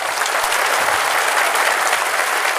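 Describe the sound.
Loud, dense audience applause welcoming Gordon Brown at the Greenbelt Festival's 50th anniversary. The clapping holds at an even level throughout, with no voices over it.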